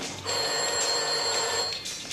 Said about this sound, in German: Telefon.